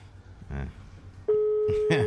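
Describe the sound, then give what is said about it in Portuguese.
An outgoing phone call to a man rings unanswered: after a brief voice, a steady electronic ringback tone starts partway through and holds at an even pitch, with speech over it. “Vou ligar pra esse cara aí. Vamos saber. Ele vê que é nós, ele sabe que é nós já.”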